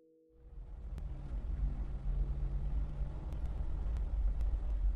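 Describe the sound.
A car driving, heard as a steady low rumble that rises from near-silence in the first moment and stays even throughout, with a few faint, sharp clicks scattered over it and no voices.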